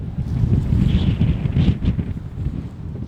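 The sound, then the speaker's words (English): Strong wind sweeps across boggy, barren land with tall dry grass, buffeting the microphone in a continuous low, gusting rumble that swells and eases throughout, with no voices. “It's also quite boggy in parts. I didn't come prepared. And there's wind, a lot of wind.”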